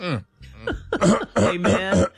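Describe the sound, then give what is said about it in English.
A man clears his throat during a church service, giving a few rough, voiced ahem-like bursts that grow louder and more forceful toward the end, heard on their own with no talk. “Let me clear my throat.”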